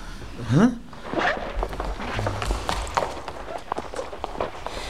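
Footsteps of a group walking through a museum: many quick, uneven steps and soft thuds pattering along steadily, with a brief rising sweep near the start.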